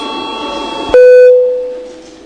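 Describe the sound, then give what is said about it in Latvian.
A parliament chamber bell signals deputies' attendance registration: an electronic tone starts abruptly, rings loudly and steadily, then slowly fades away. “Lūdzu zvanu.”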